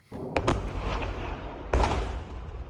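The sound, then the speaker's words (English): Muffled explosions during an Iranian attack on a US airbase in Jordan: two quick bangs early on, then a heavier boom about a second later, over a continuous low rumble. “The moment a US airbase in Jordan came under Iranian attack.”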